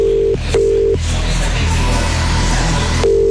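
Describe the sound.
A telephone line tone sounds while a caller is dialed for an on-air phone-in game: a steady low tone cuts out twice, first briefly and then for a longer gap, before returning.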